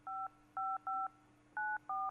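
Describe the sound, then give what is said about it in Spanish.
Telephone keypad tones sound as a number is dialed: five short, clean dual-tone beeps in an uneven rhythm, with a faint low hum underneath. “A ver, espera, un momentito, que cojo el teléfono.”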